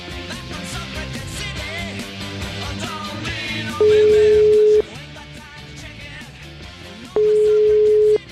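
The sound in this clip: Ringback tone of an outgoing telephone call: two long, steady, mid-pitched beeps about a second each, separated by a pause of several seconds, sounding loud over a continuous music bed.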